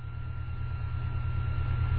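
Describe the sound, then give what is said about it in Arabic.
An airplane flying over makes a steady, low droning rumble with a faint constant hum above it, growing slightly louder across the two seconds. “ومر الطائرة. فتعرف صوت الطائرة مشوش، فسكت حتى يذهب صوتها.”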